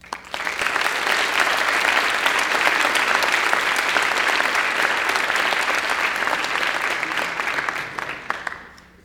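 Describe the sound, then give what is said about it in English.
Sustained audience applause for student representatives, welcoming the new ones who will serve next semester. Many hands clap in a dense, loud, unbroken wash that holds steady for several seconds before tapering off at the end. “Please give all the representatives and those present here a hand and welcome the new ones who will continue next semester.”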